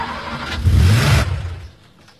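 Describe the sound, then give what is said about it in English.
A car engine is started after a repair attempt. It cranks, catches and surges loudly for about half a second, then settles and fades to a low, quiet idle. “Turn on the engine and let's see what happens.”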